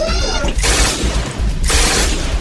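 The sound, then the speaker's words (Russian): Gunfire effect of demon guards shooting fiery arrows in a fantasy fortress battle, heard as two long, dense, loud volleys of noisy rattling bursts. “Ища своими трубами кемерийца и открывая яростную беспорядочную стрельбу. Серии огненных стрел прошивали воздух.”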